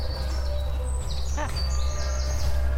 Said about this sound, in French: Ah, les oiseaux qui chantent.